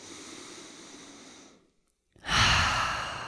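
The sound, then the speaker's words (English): A deep breath is drawn in with a steady airy hiss, followed by a short silent pause. Then comes a louder, fuller exhale that fades slightly as it ends. “So how about we take a couple of breaths, maybe more than a couple.”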